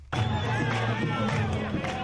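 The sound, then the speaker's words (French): A jubilant crowd at the entrance to the Al-Aqsa mosque esplanade in Jerusalem breaks into a dense, continuous mass of raised voices. The sound starts abruptly and holds loud throughout, with overlapping shouts and no pauses. “Une foule en liesse s'est massée à l'entrée de l'esplanade des mosquées après l'annonce de la nouvelle.”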